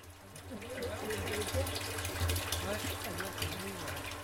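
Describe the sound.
Water gushing into plastic cans as it is filled from a well: a steady, continuous rushing pour with faint voices murmuring underneath.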